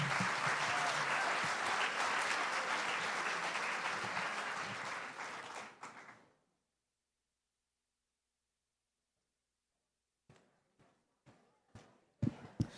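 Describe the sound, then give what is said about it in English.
Dense audience applause at a live music performance, loud and sustained for about six seconds before dying away into silence, then a few scattered knocks. “Big hand of applause,”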